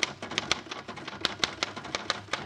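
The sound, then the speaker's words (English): A typewriter types up a verse on a card with many rapid, uneven keystrokes, each a sharp mechanical clack, with brief pauses between bursts. “Yeah, give me your card, and I'll type it up for you, just like I did Molly's.”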